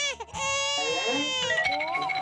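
A small child cries loudly and continuously, a strained, wavering wail with shifting pitch.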